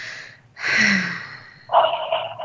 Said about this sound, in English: And take a deep breath in and out.